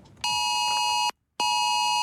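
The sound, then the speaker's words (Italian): Amber Alert emergency tone on smartphones and TV: a loud, harsh, buzzing tone at a steady pitch sounds for about a second, cuts off briefly, then starts again. “Inizia così, preceduto da un inconfondibile segnale sonoro, un messaggio irrompe contemporaneamente sugli schermi di smartphone e TV. È l'Amber Alert”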